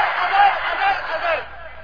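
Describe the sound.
Crowd chanting a response to a speaker at a rally in Sargodha: a loud, massed roar of voices in unison that swells, holds and then fades away.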